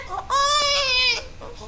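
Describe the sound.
A hungry baby cries in one long, high-pitched wail with a strained, harmonic tone, framed by shorter, softer fussing sounds just before and after.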